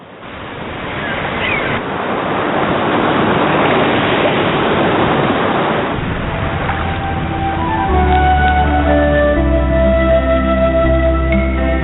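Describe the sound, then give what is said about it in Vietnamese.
Sea waves wash against a rock cliff in a steady, rushing roar of surf that swells and holds without a break. “tựa lưng vào vách đá, nghe tiếng sóng vỗ rì rào mà ngủ thiếp đi.”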